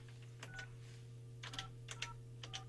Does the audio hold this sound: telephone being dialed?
yes